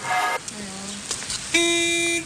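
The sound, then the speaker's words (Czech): Car horn honking in a few separate toots of differing pitch, the last blast longest and loudest, with no talk over them. “Klaxon troubí.”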